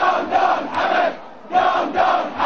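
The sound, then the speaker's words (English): A protest crowd outside Salmaniya hospital chants loud, rhythmic phrases in repeated bursts, with a short lull partway through before the chanting resumes. “Outside the Salmaniyah hospital, crowds began to grow. This had become a place of protest.”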